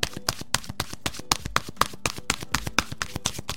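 Oracle cards being shuffled and drawn from a deck, giving many rapid, evenly spaced taps and flicks at a brisk, steady rhythm with no talking.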